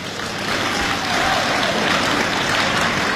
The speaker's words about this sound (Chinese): 这掌声不热烈，怎么唱这 啊？不，这掌声还不热烈呢。